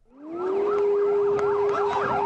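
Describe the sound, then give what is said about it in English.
An air raid siren warns of incoming rockets. Its wail rises quickly to a loud, steady pitch, with wavering, warbling tones layered over it, sounding alone without voices. “Four times during the afternoon today, the siren sounded and residents ran for bomb shelters as more rockets landed in Haifa.”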